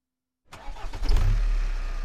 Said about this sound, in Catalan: Vaig arrencar el cotxe i vaig sortir del pàrquing.